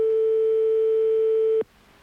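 Telephone ringback tone on a radio call-in line: one steady, pure mid-pitched tone holds for about one and a half seconds, then cuts off abruptly to quiet line hiss.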